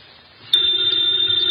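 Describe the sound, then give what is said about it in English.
A telephone bell rings loudly and steadily, a continuous bright electric trill that starts abruptly after a brief quiet lead-in and holds unbroken to the end, with no voices. “the ringing of that phone bell brings you mystery, adventure.”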